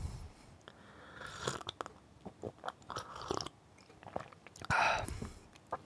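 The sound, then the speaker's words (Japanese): Chinese tea being sipped, with soft mouth and cup noises and small clicks, then one louder, airy slurping sip near the end, all at low level. “ちょっとお茶飲んでいいですか”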